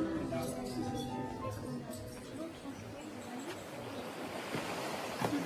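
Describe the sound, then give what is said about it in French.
Sea waves wash against the seafront at Balbec in a faint, continuous rushing surf with soft hiss and low rumble, heard under quiet talk. “Marcel fait quelques pas sur la digue de Balbec, s'arrête et regarde la mer.”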